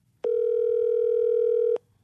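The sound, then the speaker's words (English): A telephone tone as a number is about to be dialed: a single steady, mid-pitched tone that starts abruptly, holds for about one and a half seconds, and cuts off sharply. No one talks. “I'm going to dial it.”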